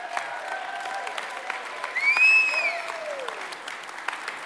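A church audience claps continuously to welcome a preacher, the dense applause swelling in the middle with a few voiced cheers rising above it.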